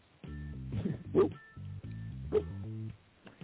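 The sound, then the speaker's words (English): A dog vocalizes in a run of whining, yipping sounds: several short tonal bursts with clear harmonics, moderately loud, with brief sharper yelps standing out between them. “And the dog approves.”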